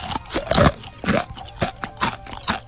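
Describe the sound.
Crunching of thick, chicken-flavored snack noodles topped with mayonnaise and shichimi: many loud, crisp bites and chews in uneven bursts, with no talk over them.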